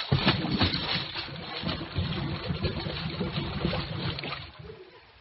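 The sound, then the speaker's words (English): Water churning and splashing as a new Cadillac plunges into a swimming pool, a dense, continuous wash of liquid noise that holds steady before easing off near the end. “Told you that would stop it. Right into the water. Don't worry. It's a new Cadillac.”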